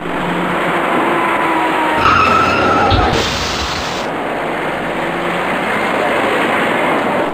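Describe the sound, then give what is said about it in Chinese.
Car tires skid and squeal loudly as vehicles brake hard at a traffic-light intersection, with a dull crash in the middle of a chain rear-end collision involving a white car, a taxi and a dark car, over steady traffic noise. “一看前方路口里的交通信号灯变为黄灯，这辆白色小客赶紧停住脚步，可他后面的一辆出租车却撞了上来，而后又有一辆深色小客追撞上出租车”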